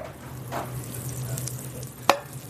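Cold butter sizzles and fries in a hot cast iron skillet, a steady crackling hiss throughout, with one sharp click near the end.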